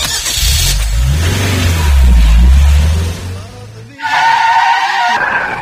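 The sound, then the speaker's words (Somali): A car engine revs with skidding tires, a loud, sustained low rumble that swells midway and then cuts off abruptly. A different, brighter sound follows. “gaarigan hagaag u soo raac”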